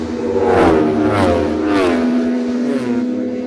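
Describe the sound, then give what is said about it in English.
Racing motorbikes pass during a road race: a loud, high-revving engine roar that swells and shifts in pitch and fills the whole span without a break. “a Scutcher bike sighted, and two into view now, two, three, four behind.”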